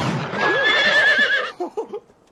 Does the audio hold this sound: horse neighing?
yes

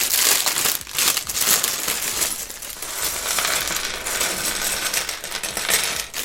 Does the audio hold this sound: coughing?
no

